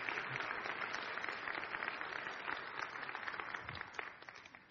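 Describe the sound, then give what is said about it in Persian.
Applause from an audience at a Christian gathering, a steady, dense wash of clapping that runs without a break from start to finish at a faint level. “بس یه دست محکم بزنید برای سلطنت عیسی مسیح.”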